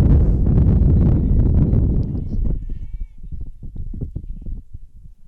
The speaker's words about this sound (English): Wind picking up as the doubleheader has gone along.